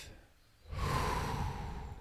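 A slow breath drawn in and let out: a soft, airy rush that swells after a short quiet start and holds steady to the end, with no talking.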